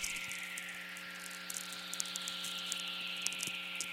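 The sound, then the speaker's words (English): Crackling lightning static comes through a VLF radio receiver from a storm far away, with many irregular sharp snaps and clicks over a steady low electrical hum and a soft hiss. “These receivers are sensitive enough that a lightning storm could be happening 1,000 miles away and the static would still be strong. You can just hear all the snapping.”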